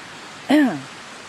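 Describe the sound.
Strong, fast-flowing water makes a steady, even rush of noise throughout, and one short vocal sound rises briefly above it partway through.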